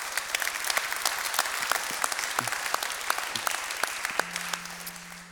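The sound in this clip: Applause from a church audience, a steady dense patter of clapping lasting throughout, with a sustained low note entering near the end.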